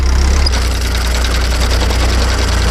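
A tractor engine running during hay raking in a 1990s hayfield, a loud, steady, low diesel rumble with an even, slightly knocking pulse that holds throughout.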